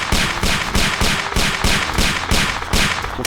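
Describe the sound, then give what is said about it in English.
Rapid gunfire from a handgun in a video game: a loud, steady run of evenly spaced shots, each a sharp crack with a brief rumbling tail, and no voices. “So this is the laser. We have a handgun.”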